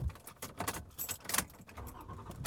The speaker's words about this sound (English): I am driving home. I'm in my wife's van this morning.